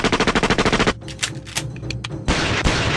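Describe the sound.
Gunfire opens with a rapid automatic burst of about a dozen sharp, evenly spaced shots, then gives way to a rougher stretch of scattered bangs and impacts before a dense, steady roar fills the end.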